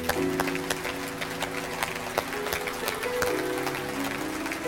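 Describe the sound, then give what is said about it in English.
Church audience applauding as new members step down to the altar, with dense, continuous clapping layered over sustained musical tones. “Let's give them a hand as they come on down.”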